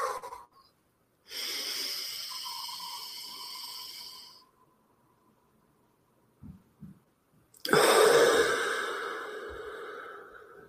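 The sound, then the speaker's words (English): Two long, airy breaths from a guided deep-breathing exercise, breathing in and exhaling through the nose. Each is a loud, hissing rush lasting a few seconds, separated by a quiet gap with a few soft clicks. “let's take a deep breath and really tap in. So if we just want to shake it all out and exhale and then go through the nose and not through the mouth.”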